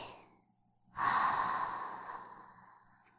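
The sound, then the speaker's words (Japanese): Deep, slow breathing during a guided breathing exercise: a faint breath trailing off at the start, then one long, airy exhale that begins abruptly and fades gradually. “そのままもう一回、深呼吸をしよっか。吸ってー、吐いて、”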